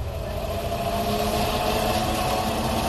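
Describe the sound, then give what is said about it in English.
Spaceship engine on sublight drive, a steady engine-like hum that drones without a break at an even, moderately loud level, with a low rumble beneath a brighter mid-range tone and no voices. “Get the gravitational dampers online and open the blast shield. Aye, sir. Bring us in closer. Aye, aye, sir. Moving us in on sublight drive.”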